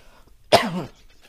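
A person coughs once from a dry throat, a single short, sharp burst that quickly fades into quiet.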